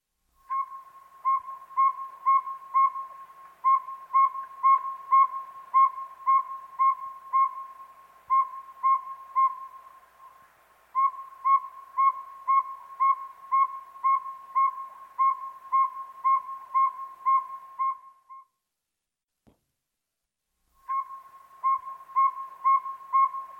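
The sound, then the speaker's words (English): A Northern saw-whet owl calls in a long series of evenly spaced, mellow whistled toots on one steady pitch. The toots come in quick runs with brief breaks and one longer silent gap, with no other sounds. “Northern Saw-Whet Owl.”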